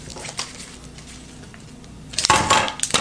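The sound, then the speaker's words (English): Duct tape is handled, with quiet rustling and soft crinkles at first, then a louder crackling, ripping burst near the end. “so yeah, you can hear that sound. That sounds like duct tape.”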